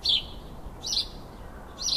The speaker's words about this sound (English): They're called house sparrows because of their close association with man.